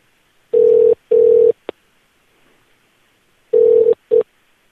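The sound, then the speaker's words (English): Telephone ringing in a rapid double-ring pattern: two short, steady buzzing tones, a pause, then another pair, the last one cut short, with a brief click between the pairs. “It's a normal ring. It's double. Rapid ringing program.”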